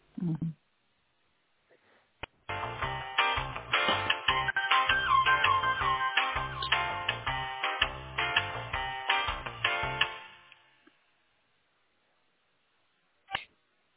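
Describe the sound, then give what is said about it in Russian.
An electronic ringtone-like melody plays over a phone line while a call to an intercom installation company is transferred to specialists. It is steady and fairly loud for about eight seconds, with a faint sound before it and a brief click after. “Да, сейчас секундочку на специалистов переключу вас.”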